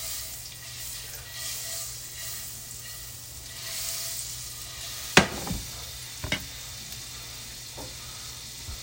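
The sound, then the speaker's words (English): Butter melting and green onions sizzling in a pan: a steady, soft frying hiss runs throughout, broken near the end by one sharp metallic clank and a few lighter knocks. “that butter's gonna melt and green onions are going on right now.”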